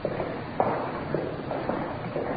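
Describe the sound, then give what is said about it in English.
Footsteps climb the stairs to the main reception of the General Hospital in Los Angeles, a series of soft, slightly uneven footfalls. “Up the stairs now to the main reception.”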